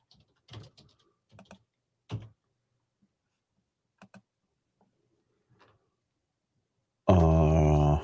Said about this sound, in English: I always spell guitar wrong. Why is that? It's when I try to type too fast.